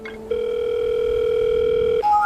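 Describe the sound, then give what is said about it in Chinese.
Telephone dial tone while a call is placed: a steady, loud, continuous tone holds for about two seconds, then shifts abruptly to a different, higher tone. “我们打一个电话吧， 请个人带带我们。”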